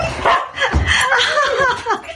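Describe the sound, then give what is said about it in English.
Dogs yapping happily in an excited greeting, a rapid, tumbling run of many high yips and whiny, squeaky cries that rise and fall in pitch, loud and continuous throughout. “it's hard not to smile when you're greeted by a delirious display of uncontrolled canine joy. But it's not just the happy yapping and wriggling tail wagging that tug at our heartstrings.”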